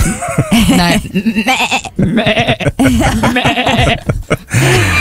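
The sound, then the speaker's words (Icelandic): A woman's voice imitates sheep bleating, giving several wavering, nasal bleats in a row, meant as young, middle-aged and old versions, each loud and quivering with short gaps between them. “Sko, ég hef alltaf verið mjög góð í að jarma.”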